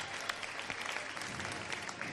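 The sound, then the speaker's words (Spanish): Sustained applause and ovation from a crowd greeting a religious procession float carried by a team of bearers, a dense, even clatter of many hands clapping, faint and continuous throughout. “Todas las miradas clavadas en este señor del soberano poder que ahora avanza con fuerza hacia la Plaza de la Campana, levantando esta ovación”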